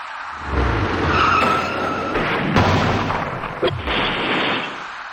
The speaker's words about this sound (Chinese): 行驶在前面的车辆已经减慢了速度，可从后面开上来的那辆厢式货车却毫无顾忌快速向前，司机的鲁莽急躁导致厢式货车猛然追撞上前方的白色小客